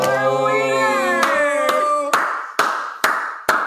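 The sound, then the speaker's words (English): Loud hand claps, six sharp, evenly spaced claps about half a second apart, coming right after a sustained tonal note that fades as the clapping takes over. “I'm sure that audio is going to be great with your loud ass claps.”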